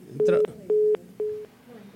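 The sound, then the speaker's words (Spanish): Telephone line tones from a call that fails to connect: three short, steady, mid-pitched beeps evenly spaced in a regular pattern, with a brief voice sound overlapping the first beep. “Bueno, pues no entra la llamada”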